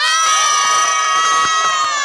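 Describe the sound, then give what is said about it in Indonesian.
Loud crowd of children cheering and shouting together, a dense bright wall of high voices that stays steady and continuous throughout. “Nah, kita ulang sekali lagi dari sorak-sorai.”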